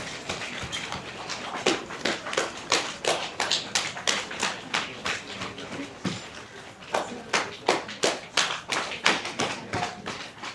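Heels knock together like clapping hands in a traditional Chinese medicine exercise, making many sharp, evenly spaced taps in a steady, repeating rhythm.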